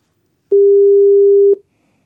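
A single steady telephone tone heard while placing a call, one flat mid-pitched beep lasting about a second, alone with no voices.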